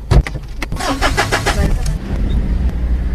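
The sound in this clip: A pickup truck (bakkie) engine starts with a short cranking burst, then settles into a steady, loud running rumble.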